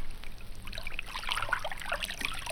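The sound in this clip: Water of a fast-flowing river runs in a steady trickling rush, with bright little splashes and droplet sounds scattered through the middle of the stretch.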